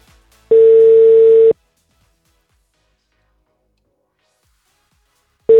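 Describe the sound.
A telephone ringback tone plays on a call that goes unanswered. One steady, mid-pitched tone lasts about a second, then there is a long silence before a second tone begins.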